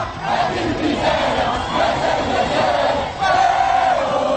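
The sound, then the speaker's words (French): Football supporters celebrate in the streets of Casablanca with a dense crowd roar of shouting and chanting voices, loud and sustained, briefly dipping near the end before surging back. “Dans les rues de Casablanca, c'est l'euphorie. Les supporters dansent, chantent.”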